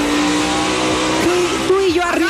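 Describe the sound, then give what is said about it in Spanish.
Race car engine revving in bursts, its loud droning note jumping up in pitch a few times as the throttle is blipped. “¿Quieres que le acelere? Sí. Mira, te va a acelerar.”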